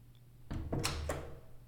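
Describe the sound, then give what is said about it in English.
A door being locked, heard as a faint, short clunk and rattle of the latch that briefly rises out of quiet background hum. “Oh, you locked the door.”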